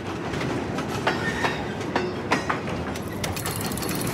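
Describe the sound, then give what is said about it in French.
A train pulls away after passengers board, with a steady rumble and several irregular clacks of wheels over rail joints. “Le train s'en va sans lui.”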